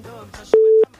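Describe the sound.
A single steady telephone line beep for an incoming call to a music request line, loud and mid-pitched, lasting about a third of a second right after a brief fragment of voice.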